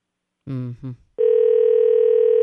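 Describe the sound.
A steady telephone dial tone sounds while calling someone, a loud, even, unbroken hum that starts just after a brief burst of voice and holds to the end.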